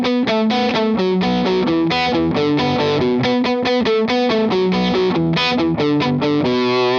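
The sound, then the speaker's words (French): Electric guitar with a distorted, effects-laden tone plays a descending melody, an open B string sounding between each melody note, giving a quick, steady alternating pattern of many bright picked notes with no voices. “En fait, on va descendre notre mélodie. Et entre chaque note, on va insérer notre corde de si à vide.”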